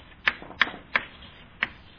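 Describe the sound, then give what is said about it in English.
Handwriting of words up on a board: four sharp, distinct taps spaced unevenly, with faint scraping between them. “So one more time, I'm going to write the words invisible up here,”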